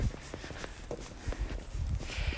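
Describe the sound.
Footsteps of a person walking outdoors: many soft, fairly quick steps in a steady rhythm, faint against a constant background hiss.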